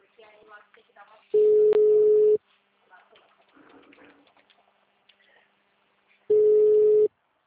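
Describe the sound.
A ringback tone sounds while someone places a phone call. Two long, steady, mid-pitched tones about five seconds apart, with people talking between them.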